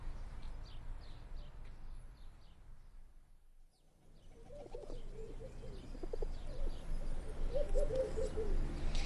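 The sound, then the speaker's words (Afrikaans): A turtle dove coos in soft, low, repeated phrases over a steady hiss of background noise, the cooing notes mostly in the second half. “het lyk of hy tortelduif tevrede is met haar nes.”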